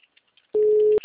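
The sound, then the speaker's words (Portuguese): Telephone call tone on a number that does not answer: after near silence, a steady single-pitched beep sounds for about half a second, breaks off briefly, and then starts again. “Estou ligando agora O número mesmo. não responde.”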